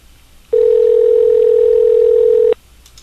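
A telephone rings unanswered on a call: a single steady electronic tone, loud and unbroken for about two seconds, then cuts off abruptly into quiet.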